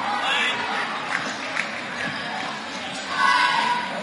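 A basketball is dribbled before a free throw at a game between Tri-Village and Fort Recovery, with a few soft bounces under steady crowd murmur that rises near the end.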